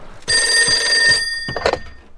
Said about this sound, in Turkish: Telefon zili.